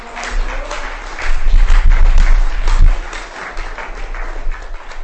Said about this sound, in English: ladies and gentlemen. Give him a hand.